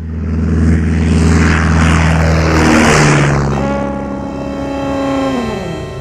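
A propeller airplane takes off from a bumpy airstrip at Grytviken near a glacier. The engine drone is loud and continuous, with steady harmonic tones that shift in pitch partway through.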